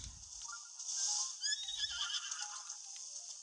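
Epona, a horse in a video game, neighs in a single high, drawn-out whinny with wavering, falling tones. Faint low thuds of hooves sit near the start and under the call, with no talk.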